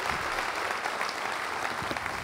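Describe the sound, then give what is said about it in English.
A church audience applauds at a morning service to welcome a guest speaker, a dense, steady patter of clapping that holds at an even level throughout, with no voices standing out. “I want you at all of our campuses, if you would, to put your hands together and welcome Dr. Ed Stetzer with us this morning.”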